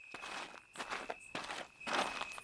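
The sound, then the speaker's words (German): Footsteps walk along a street, several steady scuffing steps in an uneven rhythm, faint and gritty against a low background hiss. “Ich also gehe die Straße entlang, trabe, laufe immer wieder”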